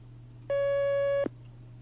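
A telephone line tone as a call is connected on a call-in line: one steady electronic beep of about three-quarters of a second over a low constant hum, with no voices.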